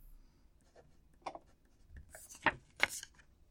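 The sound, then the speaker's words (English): Someone writes by hand, making faint, scratchy strokes in a few short bursts separated by quiet gaps, with the loudest strokes near the end and no talk. “I'll write it down here for you.”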